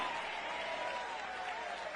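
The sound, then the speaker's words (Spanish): Congregation applauding Christ during a church service, a faint, continuous patter of many hands clapping at an even level throughout. “Dale un aplauso al Cristo de la gloria.”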